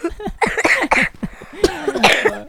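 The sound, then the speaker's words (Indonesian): A person coughing in several short, loud, rough bursts, some with a throaty voiced edge, in an irregular run. “Mau batuk.”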